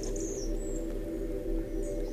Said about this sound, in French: où quelques éclats de chants d'oiseaux à peine perceptibles rebondissent ici.